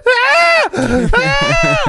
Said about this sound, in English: The only talk show host that's dumb enough to let cows be heard on the radio.